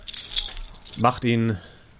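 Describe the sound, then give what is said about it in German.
Keys jangle as a dark elf draws a key and hands it over in a fantasy role-play scene, a bright metallic rattle that fades into a short lower sound. “Der Drow zieht dann einen Schlüssel und übergibt ihn dir.”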